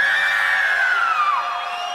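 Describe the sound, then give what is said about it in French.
A crowd in Saint-Malo shouting together at full force, a dense, sustained roar of many high voices that fills the whole two seconds without a break. “Il faut vraiment faut crier comme si c'était la dernière fois que vous pouviez crier.”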